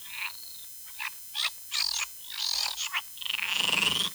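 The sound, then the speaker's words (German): Frogs croaking in a series of short, raspy calls at irregular intervals, ending in a longer, drawn-out call, with no talk. “Die Frösche lauter quaken.”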